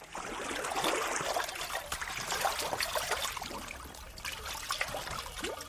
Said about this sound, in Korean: 넘친 물은 수채구멍으로 졸졸 빠져나갔다.